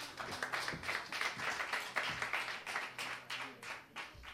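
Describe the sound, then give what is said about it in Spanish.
Audience applause at an open-mic poetry night: many distinct claps in an uneven, pulsing rhythm, moderately quiet, as a performer is welcomed to the stage. “Un aplauso para Ana, por favor.”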